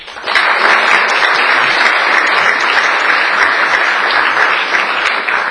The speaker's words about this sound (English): So shall we all give Dave a very warm welcome?